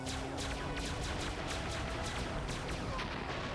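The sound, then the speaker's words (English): The Rescue Blaster from Power Rangers Lightspeed Rescue fires many sharp blasts in quick succession, a rapid volley over a dense, rumbling background. “One wounded ranger and three left. Piece of cake. Lightspeed cycle. Rescue blaster.”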